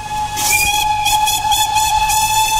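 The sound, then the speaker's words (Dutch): A steam locomotive whistle holds one long, loud, steady tone rich in harmonics, sustained over a rumbling rail background and a rhythmically pulsing steam hiss. “het geluid van een stoomlocomotief komt goed uit”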